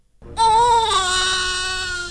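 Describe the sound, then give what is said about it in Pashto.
A newborn baby cries at the MSF maternity hospital in Khost, one sustained, high-pitched wail that starts abruptly and holds steady to the end, with no other voices. “دا د هغه ماشوم د ژړه اغږ دی چې تازه د خوست د ایم ایس ایف یا د بې پولي ډاکټرانو په زیږنتون کې پیدا شوی.”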